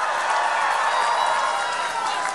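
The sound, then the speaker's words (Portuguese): A crowd at a political rally cheers and applauds for governor Jerônimo Rodrigues, a dense, loud, continuous roar of clapping and voices that stays level throughout. “Cadê a salva de palmas pro Jerônimo?”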